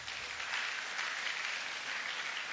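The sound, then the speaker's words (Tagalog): A church audience applauds the Lord with soft, continuous clapping that stays at an even level throughout. “So alam mo, sige, palakpakan natin ang Lord.”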